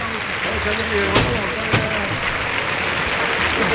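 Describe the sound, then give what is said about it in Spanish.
A bullring crowd gives an ovation to bullfighter Urdiales after the first bull is killed, with dense, sustained applause throughout and a commentator talking over it. “Y el público que ovaciona a Urdiales.”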